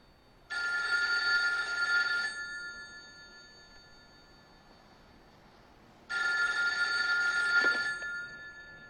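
Telephone bell ringing in two long, loud trilling bursts separated by a quiet pause of a few seconds, with no voices.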